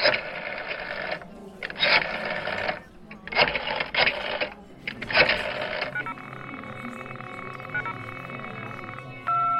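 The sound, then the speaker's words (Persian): A phone call to a number that seems cut off gives a continuous beep tone. The steady tone holds for the last few seconds, after a stretch of choppy, intermittent sound. “بوغ ممتد میزد چند دقیقه دیگه دوباره تلاش کردم ولی فایده ای نداشت انگار اون شماره به کل قطع شده بود”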